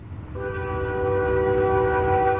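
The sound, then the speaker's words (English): A train passes close by a house in the central Nebraska town of Hastings, a low, steady rumble joined early on by a sustained, loud chord of the horn that holds through to the end. “About every half hour, a train passes close by the childhood home of Kevin Gaspers.”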